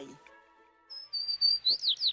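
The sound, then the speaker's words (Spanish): A sparrow chirps in a quick series of short, high, bright calls that start softly and grow louder and more frequent, alone with no other sound. “Un gorrión. Baja a las soledades del jardín”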